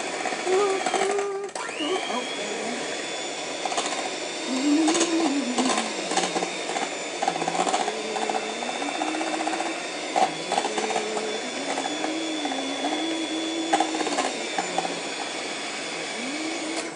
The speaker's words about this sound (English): Crushing up the banana as I mix. Oh, up to the next speed.